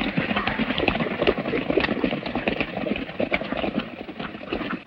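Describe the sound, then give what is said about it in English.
Horses riding away in a radio drama sound effect: a dense, continuous clatter of hoofbeats over a rumbling noise bed, steady in level and easing slightly at the very end. “They turn their horses and ride away.”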